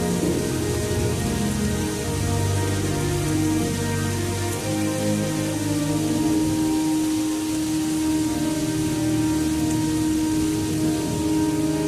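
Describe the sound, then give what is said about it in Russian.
Heavy rain falls in a steady, dense wash of drops that stays constant and fairly loud from start to finish, with no other clear sounds standing out. “Начинается сильный дождь.”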